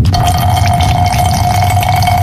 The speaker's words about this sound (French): Putain de turbulence! Pas moyen de pisser droit ici, qu'est-ce que c'est que ça?